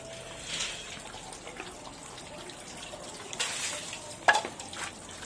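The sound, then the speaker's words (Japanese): Water splashing as someone washes their hands: a faint, continuous wet hiss with a few louder bursts and a sharp splash near the end. No voices. “じゃあ手洗いましょう。 はい、まず手を洗いましょう。”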